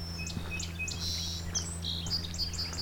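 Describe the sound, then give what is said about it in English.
Ovenbird song in woods beside a hydro corridor: faint, high, repeated chirping phrases in quick succession, carried over a steady low background. “That's the oven birds.”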